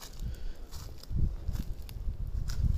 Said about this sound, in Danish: Jeg går lidt gennem krattet her. Det er jo nogle svirpende grene.